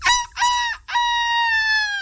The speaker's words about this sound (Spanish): Es nuestro gallo que se cree gaviota. Sí, es un gallo gaviota.